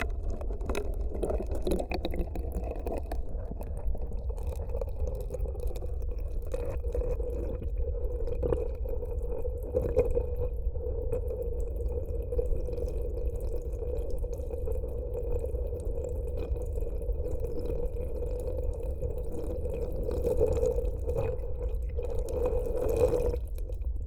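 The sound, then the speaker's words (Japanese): Hot water being poured into a container: a steady, continuous watery fill that holds a sustained mid-pitched tone for the whole stretch, with faint dripping textures on top and no voices. “ほーら、お湯を入れまーす。”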